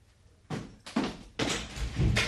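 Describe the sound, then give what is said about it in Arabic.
A door being opened in a historical drama scene: a series of heavy thuds and scraping bursts, growing denser and louder toward the end. “ضع هذه الأشياء في الباب. طبع أمرك يا سيدتي. افتح الباب.”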